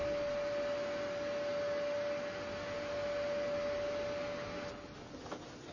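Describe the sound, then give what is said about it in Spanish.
A vacuum cleaner runs over a training mat with a steady whining drone and a constant high tone, dropping in level just before the end. “Una mujer pasa una aspiradora por uno de los tapices de entrenamiento.”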